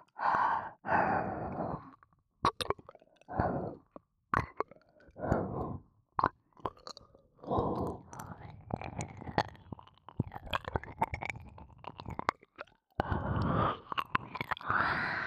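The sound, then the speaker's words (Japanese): Wet ASMR mouth sounds imitate eating the listener's ear: many close smacks, chews and soft nibbling clicks come in irregular bursts, mixed with breathy sighs and exhalations, with no talk. “どんな感じするの？お耳から食べられてる気分？”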